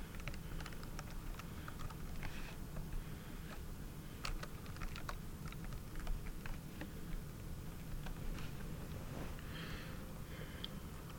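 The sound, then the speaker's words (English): Rapid typing on a computer keyboard, many crisp clicks at an uneven pace over a steady low hum, with no talking. “Oh god, I gotta type with more than one hand to type encyclopedia.”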